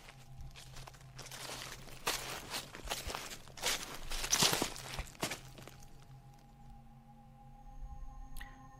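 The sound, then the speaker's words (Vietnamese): Footsteps crunching and rustling through dry leaves at night, many irregular crisp steps over a steady low tonal hum. “Tiếng bước chân của một người cứ loạt soạt, dẫm lên đám lá cây khô, vang lên rất rõ trong đêm tĩnh lặng.”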